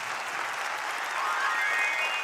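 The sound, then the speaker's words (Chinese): Audience applause fills the whole stretch as a steady, dense wash of many hands clapping, even in loudness throughout and swelling slightly toward the end, with no talking heard above it. “感谢大家热情掌声”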